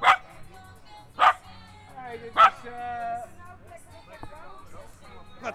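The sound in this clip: A battery-powered toy dog gives short, yappy barks, three evenly spaced and then one more near the end, while people talk softly between them.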